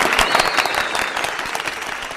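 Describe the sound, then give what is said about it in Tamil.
Applause for two callers after a comedy performance: many rapid hand claps blending into a steady, crackling patter at moderate loudness for the whole clip. “So அவங்களுக்கு கண்டிப்பாக ஒரு பெரிய கைத்தட்டல் கொடுக்கணும்.”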